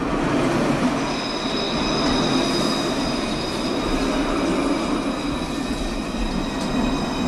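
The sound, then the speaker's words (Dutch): A light-rail tram rides through Dublin with a steady, loud rumble of wheels on track. High, thin wheel squeals run through it the whole time, and no voices are heard. “Ik neem de Luas, oftewel de tram door Dublin.”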